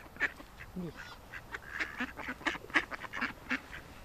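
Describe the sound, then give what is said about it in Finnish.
Tame ducks quack close by: many short, nasal quacks in an irregular series, fairly faint, with no talking over them. “Nää tulee nämä ankat kyllä tosi lähelle. Hirmu kesyjä.”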